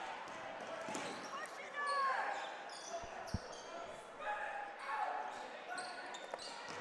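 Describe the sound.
Basketball dribbled on a court during a boys' high school game, a few dull low thuds rising out of steady crowd noise and voices.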